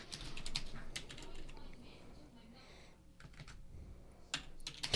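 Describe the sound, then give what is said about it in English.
Typing on a computer keyboard: an irregular run of quick, sharp key clicks, with a few louder taps near the end. “You don't have to type every word I'm saying to me.”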